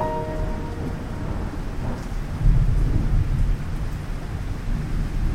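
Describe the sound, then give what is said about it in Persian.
Thunder rolls low and heavy through a steady downpour of rain during a thunderstorm, the rumble swelling louder about halfway through before easing back under the constant patter. “یه رعد و برق شد بارون گرفت”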